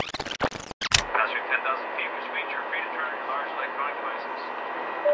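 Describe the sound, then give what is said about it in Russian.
Airplane cabin noise during flight makes a steady, low engine drone that continues under a person talking, after a few brief, loud bursts at the start. “Я в самолете. Лететь еще 4 часа.”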